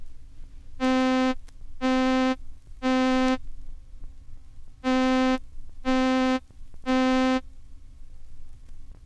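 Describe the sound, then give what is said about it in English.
A synthesized middle C sounded with all its overtones, heard as six short, buzzy, harmonically rich bursts at a steady pitch, grouped in two sets of three. “Middle C, with all its overtones, sounds like this.”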